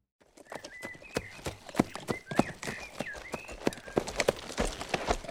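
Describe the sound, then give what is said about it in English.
Horses drawing three wagons clip-clop with many steady hoof strikes, fairly faint, while birds chirp alongside. “Wagons coming, Mr. Jamie. Three wagons.”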